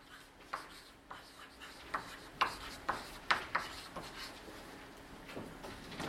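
A lecturer writing on a board during a philosophy-of-language lecture: a quick, irregular series of short scratchy strokes and rubs, some louder than others, over a faint steady hum, with no talk.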